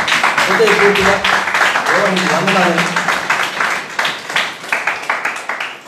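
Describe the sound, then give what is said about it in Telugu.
A church audience claps loudly for God during a Telugu sermon. A voice speaks at first, then steady rhythmic clapping builds and continues to the end. “గట్టిగా చప్పట్లు కూడా దేవునికి వాయింపరచుదామా”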